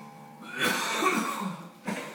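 Coughing attack from a man: a rough, drawn-out burst of harsh coughs, then one more short cough after a brief pause, with no talk over it.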